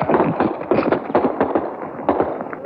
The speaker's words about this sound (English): Those are sniper bullets coming into us.